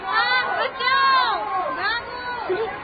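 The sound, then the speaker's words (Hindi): Crowd fleeing a riot: many overlapping agitated voices shout and cry out in a loud, continuous clamor, with rising and falling yells throughout. “सुनिए सुनिए, ये शोर भी तो इधर ही आ रहा है, और लोग भागते हुए भी आ रहे हैं।”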